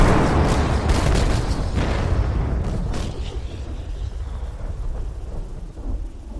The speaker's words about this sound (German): In die Tipis schlagen Kanonenkugeln ein.